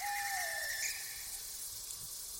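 A white bird calling from a rooftop at night: a thin, high screech that slides downward at the start, then fades into a faint steady hiss.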